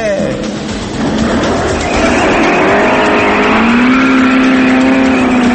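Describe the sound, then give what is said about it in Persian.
A very worn Paykan car engine running loudly, above 80 decibels, as a dense continuous roar whose tone climbs slightly in pitch partway through and then holds. “دوست عزیز و قدیمی ما، پدر کجوکوله خودروسازی ایران، جناب آقای پیکان رو با بیشتر از 80 دسیبل خدمتتون معرفی میکنم.”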